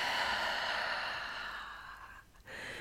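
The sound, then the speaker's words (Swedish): A slow exhale out through the mouth: a long, breathy, steady rush of air that fades slightly, breaks off briefly near the end, then resumes at similar strength, with no talk. “Och öppna munnen och släpp långsamt ut luften genom munnen.”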